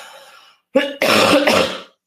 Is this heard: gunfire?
no